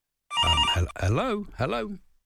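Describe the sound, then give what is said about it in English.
A voice imitates the ringing of a bright red telephone with a red light. It gives three loud, tonal bursts in quick succession, with the pitch bending up and down within the later two. “Oh, what's that? That was a phone. That's a bright red... What's that red phone? Red light on it.”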